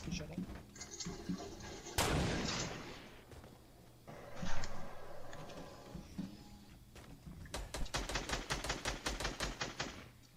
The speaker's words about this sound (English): Where are you guys getting shot at?